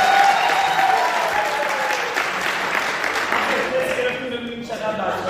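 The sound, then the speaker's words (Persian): A Persian-speaking church audience claps together, with steady, dense applause and voices mixed in, slowly fading slightly toward the end. “ساعت 8:30 شب یا یه دست بزن. ساعت 3:05 یاله یه دست بزن.”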